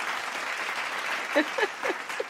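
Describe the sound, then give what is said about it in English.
Audience applause welcoming a guest, a steady wash of moderate clapping lasting the whole clip, with a voice briefly heard over it near the end. “let's give our guest a round of applause real quick for coming up for us today”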